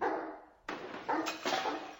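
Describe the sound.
A dog barks a few times in short, sharp bursts that each fade quickly, loud and alone with no talk, in a professor's house where it is running loose and could break things.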